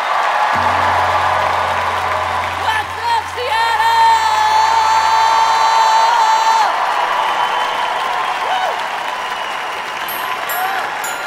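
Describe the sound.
A live theater audience at the Paramount Theater in Seattle cheers and applauds as the evening's hosts are welcomed to the stage: dense, loud, continuous clapping with whoops and shouts that carries on steadily and eases slightly toward the end.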